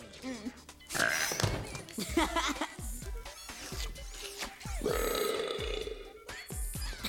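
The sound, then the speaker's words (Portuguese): A cartoon character lets out a belch after gulping a soda made for burping, a throaty burp set among busy cartoon sound effects and chattering voices. “Ah, o mais novo refrigerante para arrotar. Ele garante um arroto por gole.”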